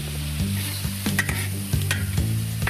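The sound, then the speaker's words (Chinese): Loud, steady sizzling as chunks of stone frog are stir-fried in hot oil with ginger slices, pickled chili and soy sauce, broken by a few sharp scraping stir strokes. “生火将石蛙切成块，待锅内油热后，放入姜片、石蛙、泡椒、生抽进行爆炒，”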